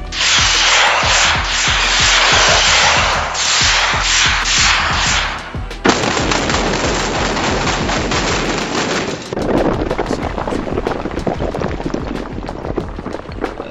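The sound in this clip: Explosives set off to level burning buildings make a loud, dense barrage of many rapid blasts in quick succession, continuous throughout, with one sharper crack near the middle.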